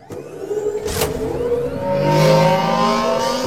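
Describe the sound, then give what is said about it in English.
A cartoon race car takes off with a whooping engine sound. Rising whine tones sweep upward over a revving drone, with a sharp burst near the start. No one talks over it. “they had to make a noise that sounds like it's taking off, but without the traction. You know what I mean? Right. So it's kind of really interesting how they did it, and it has this like whoop noise to it”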